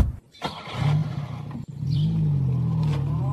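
A car pulls away from a stop, its engine settling into a loud, steady low hum with a slight revving swell that carries on to the end, with no voices.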